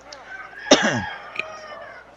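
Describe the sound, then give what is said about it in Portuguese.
A rooster crows once: a short, harmonic call that starts loud and drops in pitch, fading within about half a second over a quiet background. “Tem um galo cantando.”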